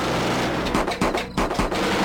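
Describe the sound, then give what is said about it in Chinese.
Intense gunfire at night in a densely forested mountain valley in Sichuan, with a few sharp cracks rising over a constant rough, rumbling noise bed in a short, dense burst. “突然一阵激烈的枪声打破了山林的寂静。”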